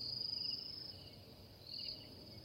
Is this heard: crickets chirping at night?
yes